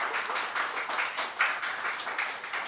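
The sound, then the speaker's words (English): Audience applause at a poetry reading event: dense, steady clapping from many hands fills the whole stretch at an even, moderate loudness, with no voices over it. “It's really thrilling, all the clapping.”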